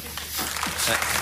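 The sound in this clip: Light, steady applause from a studio audience at a comedy panel quiz show, a brief patter of clapping that holds at an even, moderate level throughout, with indistinct voices mixed in over it.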